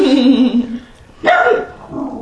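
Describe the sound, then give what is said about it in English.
A dog barks during a late-night tabletop game at home, with a few loud, rough bursts separated by a short quieter pause. “Stupid dog.”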